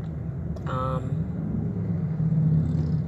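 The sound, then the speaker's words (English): A car is driving, giving a steady low rumble throughout, with a brief higher tonal sound near the start. “I'm still driving.”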